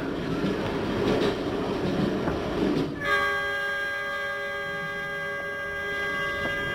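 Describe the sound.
Rumbling noise of a passenger train running on Lunar New Year's Eve, broad and steady for about three seconds, then a sustained horn-like tone with stacked harmonics takes over and holds to the end above a quieter rolling rumble.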